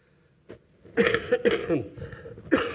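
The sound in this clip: Coughing and throat clearing from an asthma flare-up, a few harsh, rough bursts that come close together after a quiet start.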